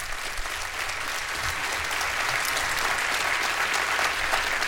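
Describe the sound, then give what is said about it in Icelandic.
Audience applause at a live music performance: dense, steady clapping from a crowd that stays loud and even for the whole stretch, with no speech over it. “Þorsteinn Einarsson, gefa honum gott klapp.”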